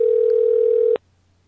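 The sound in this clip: Ringing tone on a telephone call: a steady, pure mid-pitched tone holds for about a second, then cuts off with a click into near silence.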